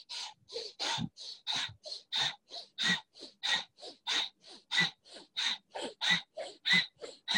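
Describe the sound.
Rapid, regular breathing from a breathing exercise timed to the silent repetition of Allahu: many short, forceful, breathy puffs follow each other at an even, quick pace with no spoken words.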